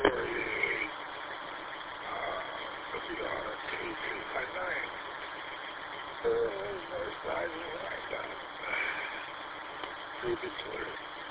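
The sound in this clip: A car engine running while driving, a steady mid-pitched hum and vibration that sits beneath people talking over a narrow-band radio line.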